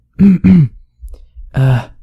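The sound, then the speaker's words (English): A man clears his throat, loud and close, with two quick harsh rasps in succession followed after a brief pause by a longer, rougher third. “clears his throat, twice”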